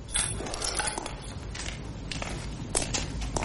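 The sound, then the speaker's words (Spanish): Footsteps of a man walking through a factory at night, a run of irregular, crunchy, scuffing steps with small clattering clicks over a low, steady background rumble. “Por la noche, Gabaldá camina por la fábrica.”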